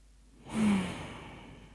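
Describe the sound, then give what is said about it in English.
One deep, breathy sigh taken during a guided relaxation moment: it starts abruptly, swells quickly, then trails off slowly, soft and alone. “let's all just take a bit of a breath.”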